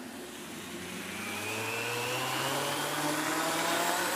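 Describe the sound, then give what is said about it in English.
A blender whirs through 72 ounces of green smoothie, its motor giving a steady, dense drone with a whining tone that climbs slightly in pitch and grows louder. “Now, I've actually already blended it. I just wanted to blend it so you could hear it.”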